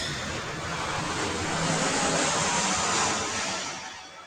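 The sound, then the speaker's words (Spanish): An airplane passes overhead. Its broad, roaring rumble holds steady, swells to a peak, then begins to fade, heard on its own without voices. “porque viene el avión”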